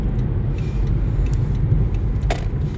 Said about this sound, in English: And I need to hurry so I can get off the freeway. Sorry guys. Driving and talking at the same time.